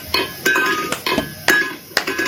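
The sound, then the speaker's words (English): A cat shakes its food bowl, producing a series of sharp, irregular clanks and rattles with a light metallic ring, at a moderate level. “the cat didn't do the second round of bowl shaking until he made eye contact with the mom”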